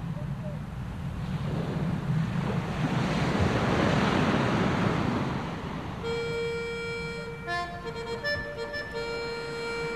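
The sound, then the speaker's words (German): A seaplane lands on the shallow waters of the Jade Bight. A broad rush of water, spray and wind noise builds to a peak midway, then eases into a lower, churning wash. “Wir flogen zurück und landeten, wenn man das sagen kann, auf den seichten Wassern des Jadebusens.”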